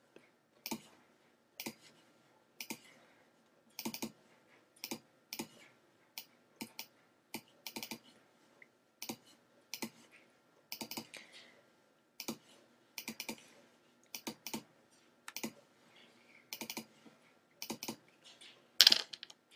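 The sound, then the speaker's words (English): Keys on a Mac computer keyboard being clicked: many sharp, quiet taps and short clusters scattered irregularly throughout, with no voices. “I'm clicking delete, and nothing's deleting.”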